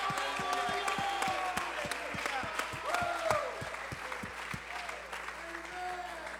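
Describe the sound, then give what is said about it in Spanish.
A church audience claps in steady, fast rhythmic applause after a call to praise. Voices carry over the continuous clapping throughout. “Somebody give God a shout of praise. Alguien glorifique el nombre de Dios. Aleluya. Alguien aplauda.”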